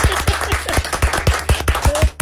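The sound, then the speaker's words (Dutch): Hand clapping from a small group in a studio, marking a couple's 47th wedding anniversary; many sharp, fairly even claps run through the whole clip over a low steady hum. “Ik vind dat we daar wel even een applausje mogen voor laten horen hier in de studio.”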